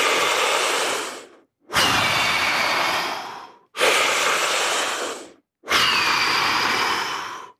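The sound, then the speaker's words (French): Four very strong, deep breaths of a breathing exercise, filling and emptying the lungs fully: loud, rushing airflow lasting a second or two each, separated by short silent pauses, in a steady rhythm. “Ça fait des respirations très fortes.”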